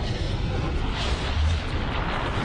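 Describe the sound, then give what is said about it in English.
The lateral blast of Mount St. Helens volcano erupting, a huge cloud of hot gas and ash bursting from the mountainside, heard as a deep, continuous rumbling roar that stays loud and steady with heavy low-end noise. “Mount St. Helens explodes. A huge billowing cloud of hot gas and ash blasts out. It doesn't shoot up through the mountaintop. It bursts out from the mountainside.”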